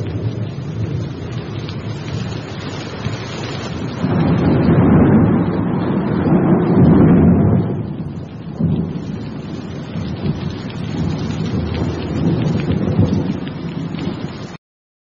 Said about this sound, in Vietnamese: Nhưng nửa đêm, nổi cơn mưa lớn.